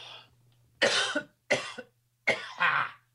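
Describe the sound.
Someone coughs after a fly went down their throat, giving four harsh, abrupt coughs. The last two come close together, and a faint low hum sits beneath them.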